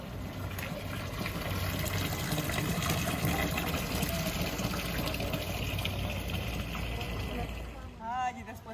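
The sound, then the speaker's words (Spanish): Gushing water from a spout where laundry was washed by hand in the past and still is, a steady loud rush that continues throughout, with a voice speaking over it. “Miren, en este chorro lavaban la ropa antiguamente y aún hay gente que lava la ropa aquí.”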